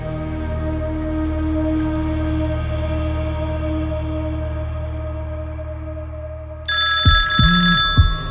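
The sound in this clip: A telephone starts ringing near the end with a bright, trilling electronic tone over a steady, droning background.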